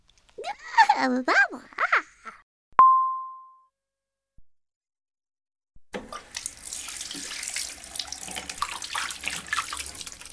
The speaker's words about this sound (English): Wash your hands. Good girl. Now wash your face.